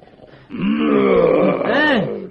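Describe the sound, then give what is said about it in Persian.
A person imitating a lion's roar with one long, throaty, growling groan that lasts nearly two seconds, loud and alone. “آقا شیره، نهره نکش، نهره من از تو بلندتره.”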